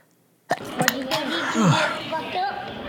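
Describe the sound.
A single sharp sneeze bursts out of silence, followed at once by people talking over the remaining sound.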